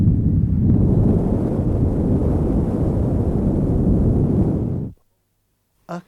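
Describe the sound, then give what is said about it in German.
A cone buffeted by wind gives a steady, dense roaring rush that holds evenly for about five seconds, then cuts off abruptly, followed by one short separate burst. “the sound of a cone in the wind.”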